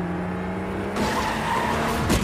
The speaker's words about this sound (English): veers off the road. The 4x4 falls and bounces down the steep hill. It stops on its side.